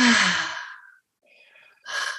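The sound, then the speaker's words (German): A deep, sighing exhalation during a breathwork exercise starts strongly and fades out over about a second. After a brief quiet, faint breath noise follows, then the forceful start of another breath. “Einatmen. Eins, zwei, drei. Noch mehr. Füll die Lungen maximal. Und aus.”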